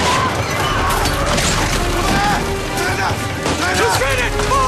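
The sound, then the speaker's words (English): Gunfire erupts as army recruits open fire on charging mounted samurai while backing away, a dense, loud, continuous clatter of shots and crashes with no break. “The recruits open fire as they back away.”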